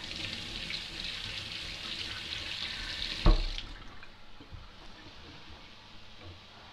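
Running tap water rinses date tomatoes in a sink, a steady bright hiss that ends with a short knock as the flow stops, leaving quieter handling sounds behind.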